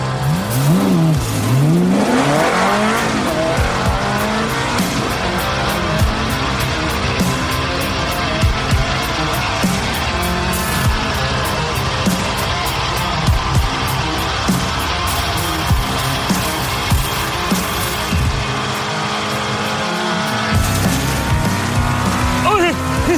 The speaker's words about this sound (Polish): Nie tak szybko! To jest Ferrari! Właśnie tak nim trzeba jeździć! Ale nie w górach!